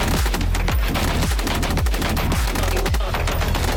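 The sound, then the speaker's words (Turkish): A PMT-76 machine gun mounted on a mobile vehicle platform fires. Rapid, loud bursts of shots hammer out in a fast, continuous rhythm throughout, each report booming with a deep low thud. “geliştirilen mobil araç platformu PMT-76 makineli tüfekle entegre edildi.”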